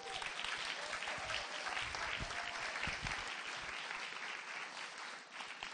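Audience applause welcomes two boys to the front of a gathering: dense, steady clapping that holds at an even level for about six seconds, with no voices above it.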